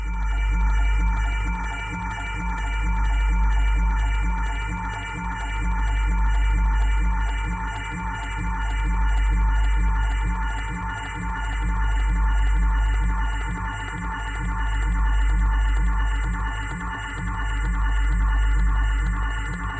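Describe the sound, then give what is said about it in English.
Audio and radio feedback from an on-air sound installation, a dense, sustained electronic drone of layered tones over a low hum that swells and ebbs in slow, even waves about every three seconds, with no voices. “All sounds you heard were recordings of an on-air sound installation that combined audio and radio feedback.”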